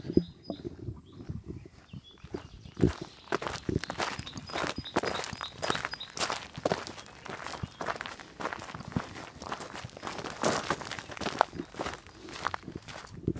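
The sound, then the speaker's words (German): Footsteps crunch along a wide gravel path: many steady, rhythmic steps with a gritty texture, quieter for the first couple of seconds, then a continuous walking pace with no talk. “Jetzt sind wir hier wieder auf einem größeren Weg. Schotter. Ja. Man hört es jetzt, glaube ich, auch an den Füßen.”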